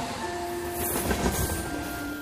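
A commuter train passing: a steady, low rumbling roar with a rhythmic rattle of wheels and a faint sustained whine. It stays fairly even throughout, with no voices.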